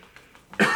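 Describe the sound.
A single sharp cough from a person with bruised ribs after a skiing crash, bursting out loud and abrupt after a near-silent stretch and held to the end.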